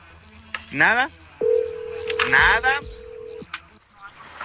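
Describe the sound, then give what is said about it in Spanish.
An unanswered telephone call rings on the caller's end as one long, steady, mid-pitched ringback tone of about two seconds, with people talking before and over it. “Nada, no está contestando. Ya mandó a buzón, bueno, todavía no manda buzón, sigue sonando”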